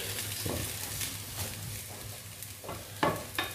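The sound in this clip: Garlic frying in a pan while being stirred: a soft, steady sizzle broken by a few scraping strokes of the utensil, faint and without talk.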